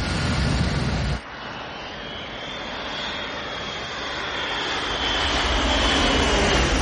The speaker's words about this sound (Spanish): Otra aeronave aterriza.